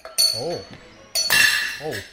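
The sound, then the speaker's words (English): A wine glass shatters with a sharp, bright crash after slipping from the mitten-like gripping hand of a humanoid robot clearing a table, while people talk around it. “Smashing the wine glass seems to have been a bad fluke, as the grip pad on its mitten-like hand wasn't right.”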